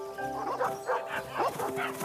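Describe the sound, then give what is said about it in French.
A pack of dogs chases a rabbit through fog, with many overlapping barks and yips in a busy, irregular stream over a steady tonal background. “Une meute de chiens surgit en suivant la trajectoire du lapin, puis s'évanouit dans le brouillard.”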